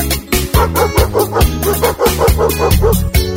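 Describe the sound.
Dog barking samples set into electronic dance music from a live DJ set, many quick yipping barks repeating on the beat over a heavy, pulsing bass line.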